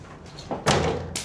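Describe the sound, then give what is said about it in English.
A toy dog thrown against a cupboard door lands with a dull, fairly loud thud, followed by a fainter knock. “Jackie throws Sam's toy dog at a cupboard door.”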